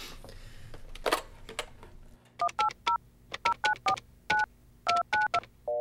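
Telephone keypad dialing tones, a quick run of many short, clear beeps in an uneven rhythm, each pitched a little differently. They follow a few seconds of soft handling noise and a click as the phone is picked up.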